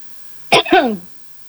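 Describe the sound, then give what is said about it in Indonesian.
A person with a hoarse voice coughs: a sharp burst followed by a longer, rough, throaty rasp, loud and alone. “maaf saya batuk-batuk suara saya lagi serak-serak ini.”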